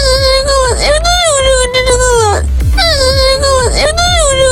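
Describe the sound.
Loud, sustained crying in two long, wavering wails with a strong harmonic tone. The cries run almost without a break and no talk is heard.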